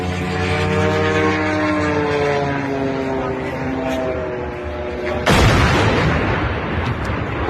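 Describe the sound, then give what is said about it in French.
A drone crashes into a huge construction crane in a Moscow suburb near an oil refinery: a steady droning engine tone with wavering pitch runs for about five seconds, then a sudden loud crash bursts in and continues as a dense, noisy rumble. “Ça, c'est le son d'un drone qui percute une grue de chantier.”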